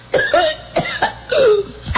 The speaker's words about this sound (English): Now this is a different cough.